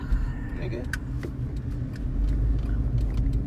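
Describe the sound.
A car being driven, heard as a steady low road and engine rumble that swells a little in its second half, with a few sharp clicks and ticks and faint muffled voices over the top.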